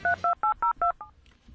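Keypad tones sound as a mobile phone number is dialed: six quick, evenly spaced dual-tone beeps, the last shorter and softer, followed by quiet.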